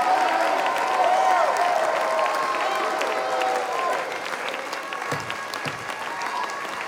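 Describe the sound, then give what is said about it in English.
Congregation clapping hands during a church healing service, loud dense applause with some cheering mixed in, easing slightly toward the end as voices carry over it. “put those anointed hands together. Clap your hands, all ye people.”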